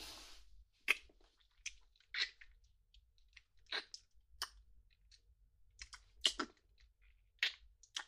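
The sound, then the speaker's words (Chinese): Kiss: many soft, wet lip smacks and clicks, faint and brief, scattered irregularly across otherwise near-silent stretches. “亲一口。”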